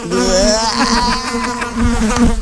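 Flies buzzing loudly and continuously, a steady droning hum with a slightly wavering pitch, with no voices over it.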